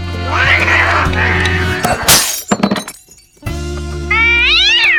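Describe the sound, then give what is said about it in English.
A decanter stopper flying into a framed photo and smashing it: one sharp, noisy crash with a brief clattering scatter after, set among loud, wavering cat-like meows. “He pulls the stopper out of the decanter. It flies across the room, smashing the photo of him with President W. Bush.”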